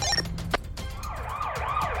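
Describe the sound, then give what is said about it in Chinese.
Sirens of two police cars speeding toward Chunjiang Road, heard as fairly faint wailing tones that sweep up and down in repeated arcs over a low rumble. “响亮的警笛声响起，两辆警车迅速向春江路开去。”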